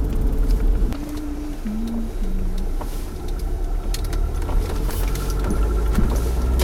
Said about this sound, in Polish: Teraz jedziemy ulicą, proszę ciebie, Zgierską.